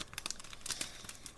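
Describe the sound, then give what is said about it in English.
A pack of trading cards is opened: faint crinkling and tearing of the wrapper, heard as a quick series of soft, irregular rustles. “Are you opening a pack? Yeah, I'm opening a pack.”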